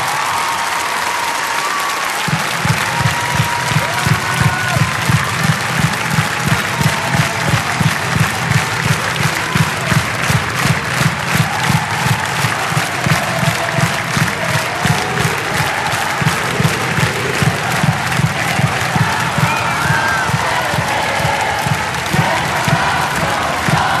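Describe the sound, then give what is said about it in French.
A concert-hall audience applauds as a tribute, the clapping falling into loud, steady rhythmic unison after a couple of seconds and holding that beat to the end. “j'aimerais que toute la salle avec moi, nous puissions faire une minute d'applaudissement pour toutes les victimes”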